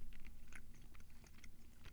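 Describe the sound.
Green beans being chewed quietly, with a run of soft crunchy bites and wet mashing clicks repeating at an irregular pace. No talking is heard.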